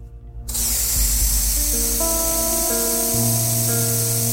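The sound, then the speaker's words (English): Antiperspirant is sprayed inside the front of a vest, a loud, continuous aerosol hiss that begins after a brief pause and holds steady for about four seconds. “He uses a roll-on on his neck, then sprays the antiperspirant inside the front of his vest.”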